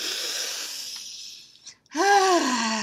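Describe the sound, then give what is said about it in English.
A deep breath is drawn in with a soft, airy hiss. It is followed by a louder voiced exhale that sounds like a sigh. “Take a deep breath.”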